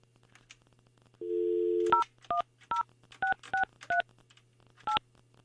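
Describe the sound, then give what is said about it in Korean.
A telephone number being dialed on touch-tone keys: a steady low tone plays first, then seven brief two-pitched beeps, one per key press, at an uneven pace with a longer pause before the last. “8580번 8580번님께 전화합니다.”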